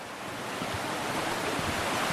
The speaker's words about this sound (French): en hiver, bien sûr, l'eau monte beaucoup plus haut. Et le bruissement est peut-être un peu moins agréable aux oreilles. On est plus dans un grondement que dans un charmant bruissement comme ce qu'on est en train de voir.